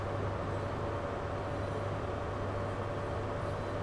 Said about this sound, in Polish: Widzicie, to jest ta stacja, na którą przed chwilą przyjechałem, nie? I sobie ruszamy.